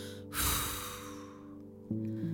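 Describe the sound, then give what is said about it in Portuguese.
A single breathy puff of air blows dust off an old book found in a chest in a basement, a broad gust that swells and fades over steady soft background music. “Um dia, ao revirar as coisas no porão, ele encontrou alguns livros dentro de um baú. Tirou o pó de um soprando.”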